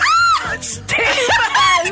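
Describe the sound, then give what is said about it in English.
A studio audience screams: loud, sustained, high-pitched shrieks from many overlapping voices, rising and falling in waves without a break. “Oh gosh, they're all screaming at me.”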